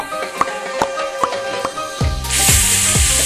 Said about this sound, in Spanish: Haz la botella de champaña.